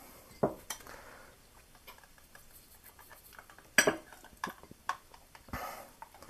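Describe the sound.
A spoon scooping a clumpy mixture into a cup: a few sharp metallic clinks and scrapes against the cup, separated by softer, wetter shuffling, fairly faint and with no one talking.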